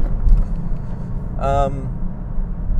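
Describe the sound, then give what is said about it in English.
Steady low engine and road rumble from a car being driven, continuous throughout, with a brief tonal sound rising over it near the middle. “excuse me while I drive a little bit here, don't kill the pedestrians.”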